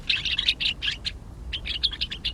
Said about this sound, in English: The gray-crowned rosy finch nests in rocky crags at higher altitudes than almost any other North American bird.